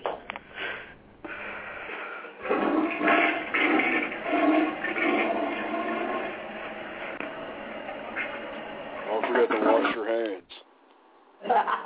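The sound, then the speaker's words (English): Water runs at a sink during hand washing: a steady, fairly loud rush that shifts in texture throughout, briefly cutting out near the end, with muffled voices at moments. “It's probably the first time you ever washed your fucking hands.”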